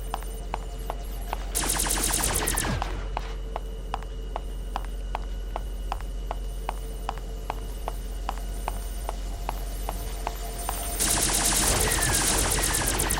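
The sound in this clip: Rapid gunfire from a video game as robots are shot in a lab: a steady, evenly spaced stream of sharp shots, with denser, noisier bursts near the start and at the end.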